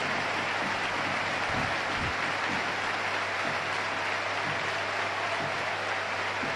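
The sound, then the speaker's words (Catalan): Football stadium crowd gives a Villarreal player an ovation as he is substituted off, a dense, steady roar of applause holding at an even level throughout with no break. “Una altra ovació de gala en el Villarreal Club de Futbol.”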